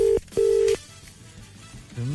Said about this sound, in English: Let me call my weather guy. It's ringing.